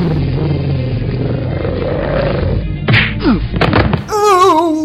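An attack sound effect of someone being kicked in the ribs, with a few sharp thwacks and thuds breaking through a dense rumbling wash, followed by a wavering, tonal cry.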